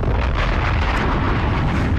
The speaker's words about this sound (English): Bombs.